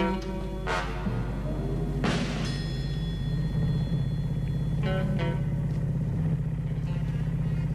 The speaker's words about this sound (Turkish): çok iyi araba kullanıyorsun